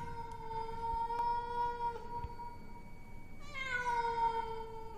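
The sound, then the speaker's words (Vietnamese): A black cat yowls mournfully in two long, drawn-out cries. The first is held steady for about three seconds; the second begins sharply and slides downward. Both are fairly faint, with no talk. “chỉ có con mèo đen, nó vẫn ngồi ở đấy, đôi mắt sáng rừng rực mà kêu lên ai oán”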